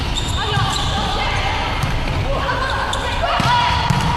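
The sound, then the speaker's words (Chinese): Volleyball serve in a match between two provincial teams: dull ball thuds and bounces under constant crowd noise, with a commentator talking throughout. “江苏队的13号李涵宇发球”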